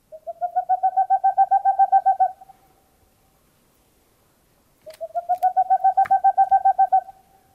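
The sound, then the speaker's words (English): A boreal owl call in two bouts of rapid, evenly spaced low hoots that run together into a tremolo trill. Each bout lasts about two seconds, and a clear pause of silence separates them. “that's a boreal owl call.”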